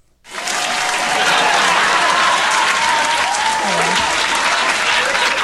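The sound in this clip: Recorded applause jingle played from an iPad: a crowd claps loudly and densely, starting abruptly and holding at a steady, full level to the end.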